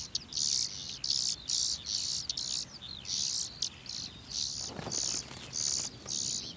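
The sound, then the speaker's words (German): Hungry nestling birds in a grain field calling for food, many high, shrill begging bursts in steady repeated pulses, with faint insect chirping underneath. “Futter für die hungrig rufenden Kehlchen.”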